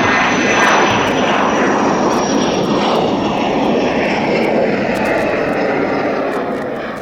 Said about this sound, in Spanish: podemos poner en marcha los motores y nos abrochamos los cinturones y nos ponemos rumbo a Padua.